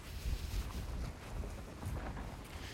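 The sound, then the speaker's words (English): Wind buffets the microphone during an outdoor walk, producing a steady, dense low rumble with gusty surges that continues through the whole stretch. “Oh shit, there's the wind again. I should really try and figure out how to do these walk and talks without being compromised by wind all the time.”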